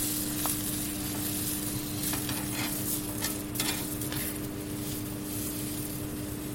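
Vegetables sizzling and being stirred in a pan as they cook smothered in their own juices: a steady frying hiss throughout, broken by a few scraping stirs, with no talk.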